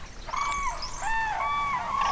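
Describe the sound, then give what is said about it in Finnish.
Common cranes calling, with chicks peeping and adults giving loud calls: several clear, ringing, harmonic notes, some held level and some bending, follow one another over a faint background. “kurjet ovat täällä kanssani. Ääni on upea. Poikasten piiskutus. Aikuisten kiljona.”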